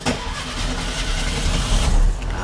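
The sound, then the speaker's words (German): A VW Beetle engine is started with the ignition key. It catches almost at once and settles into a continuous, throaty rumble that swells slightly louder toward the end. “Drum drehen wir jetzt einfach mal den Zündschlüssel um.”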